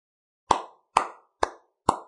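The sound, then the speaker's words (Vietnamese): Four sharp hand claps from one person clapping lightly in a hospital room, evenly and slowly spaced, each crisp and clean against silence. “Tiếng vỗ tay vang lên.”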